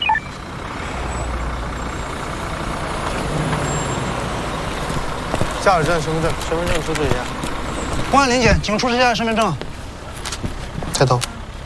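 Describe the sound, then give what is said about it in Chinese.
A minibus pulls up at a police roadside check, its engine rumbling steadily throughout, while people talk over the vehicle noise in the second half. “来辆中巴，快！”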